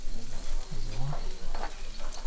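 Bratwurst sizzles on a grill at a border museum, giving a dense, steady hiss and crackle throughout at even loudness.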